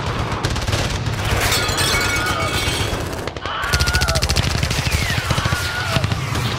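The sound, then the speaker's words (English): Gunfire erupts during a police standoff with an armed gunman: loud, rapid bursts of automatic shots rattle almost without a break, many sharp cracks packed together, with voices mixed in. “Whoa, there's bullets shooting all over the place!”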